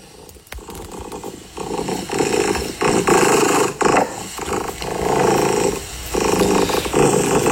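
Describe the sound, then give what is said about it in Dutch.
A contented house cat purrs loudly and steadily, with a rough, low, rhythmic rumble that pulses in roughly one-second breathing cycles. “Dit is het geluid van mijn kat. Ja, dat is een heel goed geluid. En een heel tevreden kat”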